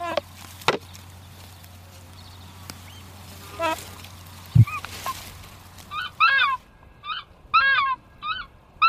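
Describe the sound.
Takahē calling: a run of loud, harsh, honking hoots fills the last few seconds after a quieter stretch with only a couple of soft knocks.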